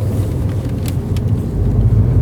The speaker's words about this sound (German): dass ich im Moment auch wirklich nur noch auf dem Heimweg aufnehme, wenn ich denn im Auto aufnehme.